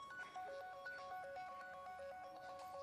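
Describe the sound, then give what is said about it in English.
A mobile phone ringtone plays a bright, melodic pattern of repeating electronic notes, steady and fairly loud throughout, with no voices over it. “someone's phone is ringing. Do you hear it? Oh, it's my phone.”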